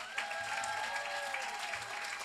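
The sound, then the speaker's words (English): Sustained audience applause welcomes author Lauren Groff to a Miami reading during Banned Books Week: a dense, even wash of many hands clapping at moderate level, with no voices, holding steady for the full length. “And now, without further ado, let's give a warm Miami welcome to Lauren Groff.”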